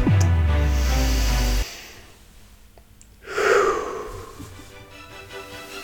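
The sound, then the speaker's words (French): A deep breath is drawn in as a single broad, airy rush that swells and then fades. A stretch of sustained tonal sound comes before it, then near silence. “Et pourquoi pas commencer tout ça avec une grande inspiration.”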